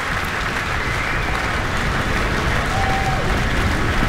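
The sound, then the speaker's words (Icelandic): Sustained applause from a concert audience as soloists, orchestra and conductor return to the stage for bows. Dense clapping stays loud and even throughout, with no break. “Já, fagnaðlátunum linnir engan veginn hér.”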